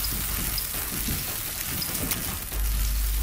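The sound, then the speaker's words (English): Capers frying in oil until crisp, a steady, fairly faint crackle and sizzle like light rain, continuing throughout with no voices. “Next, she fries some capers until they turn crisp. I'm frying the capers so they open up like little flour and becomes crunchy.”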